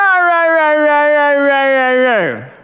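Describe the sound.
A human voice imitates a reluctant dog's grumbling howl: one loud, steady, drawn-out vocal tone that holds for about two seconds, then sags downward in pitch and trails off.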